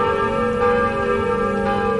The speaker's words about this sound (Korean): 원래 있던 종 1개와 새로 설치된 종 9개, 이렇게 노트르담 성당의 종 10개가 힘차게 울려 퍼지자